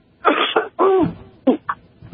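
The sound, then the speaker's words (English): A person clearing their throat: a few rough, raspy bursts of varying length, loud and alone, with the final ones short and clipped. “excuse me, I've got to clear my throat here.”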